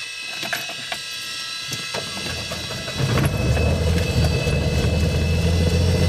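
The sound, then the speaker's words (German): A six-cylinder, 230 hp, 8-litre light-aircraft piston engine catches after a stretch of clicking, ratcheting mechanical noise, then settles into a loud, steady, low rumbling drone with no voices. “Das sind 6 Zylinder, 230 PS. Da geht was. Da geht was. Bei 8 Liter Hubraum.”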